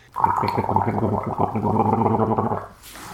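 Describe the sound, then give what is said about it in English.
A person gargles liquid in the throat, a bubbling, throaty burble lasting a couple of seconds before it stops abruptly. “I was just gargling bleach.”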